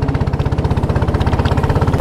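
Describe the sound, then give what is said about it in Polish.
Boat motor running at a steady idle, a rapid, even chugging pulse of medium pitch that continues loud and regular without pause. “Trochę wiosłujemy wiosłami, a teraz odpalamy silnik. Odpalamy silnik i ruszamy.”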